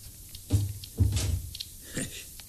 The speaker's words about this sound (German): Komm herein, Walter. Und schließ die Tür.